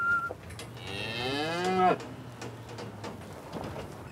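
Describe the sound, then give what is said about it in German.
A breeding bull inside a livestock trailer lets out one loud, drawn-out low, its bellowing tone wavering and then breaking downward before cutting off, with quieter background noise afterward. “Jetzt ist der Viehhändler endlich da. Im Anhänger Deckbulle Ivo.”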